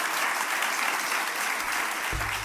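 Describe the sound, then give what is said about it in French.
Steady applause from an audience, a dense, even wash of clapping that stays at a moderate level for the whole clip. “Et oui, il mérite les applaudissements.”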